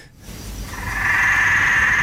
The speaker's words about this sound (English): It's a frog. It's a frog? It is a frog? Yeah, it's no bigger than a 20-cent piece. It's a frog, trust me.